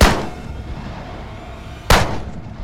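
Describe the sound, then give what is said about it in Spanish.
Shotgun blasts at night by a lake: two heavy booming shots, one at the start and another near the end, each followed by a rolling decay. “El pesado estruendo de la escopeta había estallado.”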